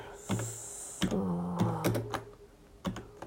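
A game title is typed on a PC keyboard as a few sparse, irregular key clicks at an unhurried pace, with a faint steady tone running underneath and no talk.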